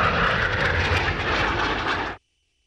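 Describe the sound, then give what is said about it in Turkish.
Loud, steady roar of military jets from the Turkish Air Force aerobatic team flying a display at an air show, holding a dense, even blast for about two seconds before cutting off abruptly into silence. “Geçmişin pervaneli uçaklarıyla başlayan gösterinin finalini Türk Hava Kuvvetleri'nin Akro timi Türk Yıldızları yaptı.”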